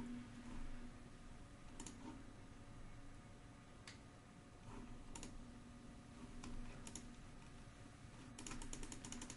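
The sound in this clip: Keystrokes on a computer keyboard as a note is typed: faint scattered clicks, a few isolated taps, then a quicker burst of keys near the end, over a steady low hum.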